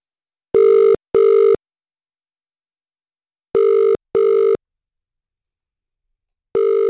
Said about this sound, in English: We're dialing now.